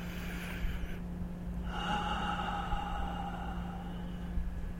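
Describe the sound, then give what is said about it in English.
A slow, deep breath is drawn in through the nose and then released out through the mouth. It is soft and quiet over a steady low hum. “take a deep breath into your nose and out through your mouth.”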